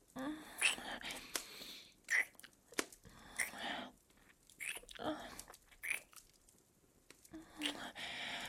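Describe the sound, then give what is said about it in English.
Soft, wet kissing sounds come in many irregular bursts of smacks and squishy mouth noises, mixed with faint whispered breaths, all fairly quiet and close. “You're a really good kisser. Can we keep kissing? I would like that.”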